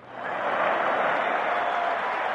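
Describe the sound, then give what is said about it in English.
A crowd of 19,000 cheering at a 1939 pro-Nazi German-American Bund rally in Madison Square Garden, a dense roar of voices and applause that swells quickly and then holds steady and loud. “That from a 1939 rally held by the pro-Nazi German-American Bund. A cheering crowd of 19,000 filled Madison Square Garden”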